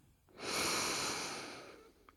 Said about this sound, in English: Take a big, deep breath in